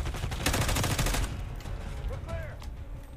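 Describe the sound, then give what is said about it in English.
Rapid gunfire rattles through a shooting video game, with a dense burst of quick shots in the first half that gives way to sparser, quieter sounds. The whole passage stays fairly faint. “呢边过嚟俾人射，顶你！”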